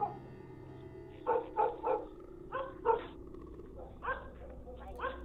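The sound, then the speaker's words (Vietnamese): A pack of dogs barks loudly in a village, with several sharp barks in irregular bursts, some rough and growly, over a low background rumble. “ở bên ngoài kia kỳ lạ, tiếng của bầy chó bỗng nhiên sủa lên inh ỏi ở trong làng.”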